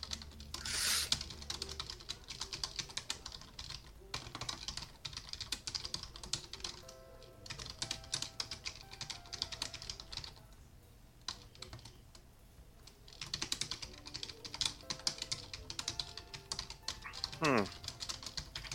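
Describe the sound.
Keyboard typing: many quick, crisp key clicks in dense bursts, broken by short pauses, at moderate loudness throughout.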